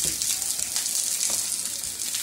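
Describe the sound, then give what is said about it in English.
Sliced onions sizzle as they fry in dripping, a dense, steady crackling hiss that runs without a break and with no talk. “The next job is to fry the pieces in a bit of dripping.”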